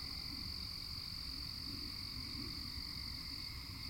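Insects chirping outdoors at night form a continuous, steady high-pitched drone with several layered tones, holding constant over a low rumbling background throughout.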